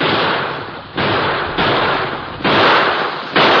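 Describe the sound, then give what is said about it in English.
Gunshots fired into the air by riders racing up to a stagecoach in an old-time radio western, several loud, booming blasts in quick succession, each sustaining a broad rushing noise until the next one hits. “The masked man and Tonto raced up to the stage, firing shots into the air.”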